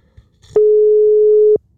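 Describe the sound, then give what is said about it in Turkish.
A single steady ringback tone from a telephone call that goes unanswered: one even, mid-pitched tone lasting about a second, heard alone between near-silence. “Ne çalıyor? Telefonu çalıyor.”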